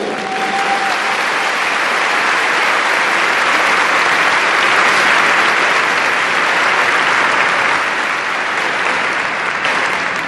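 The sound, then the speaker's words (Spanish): Sustained audience applause at a conference rally of married couples and their families: dense, loud clapping that holds steady for the whole stretch without a break and with no speech over it. “Doy un gran aplauso para la Cruzada Matrimonial.”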